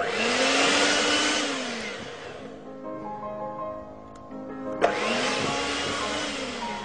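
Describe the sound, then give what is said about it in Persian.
An electric mixer whirs through dough in a loud, steady motor drone. It eases down partway through, then a sharp click brings the full whine back. “من یه مقدار یه کم با همزم میزنم اینو.”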